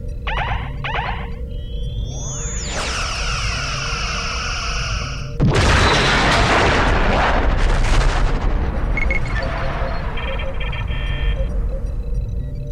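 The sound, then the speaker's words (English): Starship phasers fire in a Star Trek video game: a rising electronic whine sweeps up into a sustained beam tone, then heavy booming blasts erupt into a long, rumbling roar with scattered zaps. “USS Selena. Firing phasers.”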